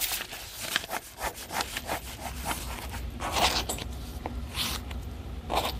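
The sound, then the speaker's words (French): A sharpened steel skiving blade cutting calfskin leather for shoemaking, making many rasping, scraping strokes in a steady, uneven rhythm, fairly faint and with no talk. “Et l'outil qu'on a en main, c'est ce qu'on appelle un chasse-peau. C'est une lame en acier en fait affûtée qui nous permet de couper la peau”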